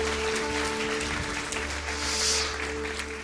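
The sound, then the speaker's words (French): Congregation clapping hands during a church celebration to welcome livestream viewers: a dense, steady wash of applause that swells slightly near the end, with a low hum underneath. “Est-ce qu'on peut leur dire un bienvenue en tapant dans les mains toutes les personnes qui sont en live là”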